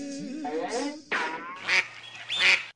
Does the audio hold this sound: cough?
no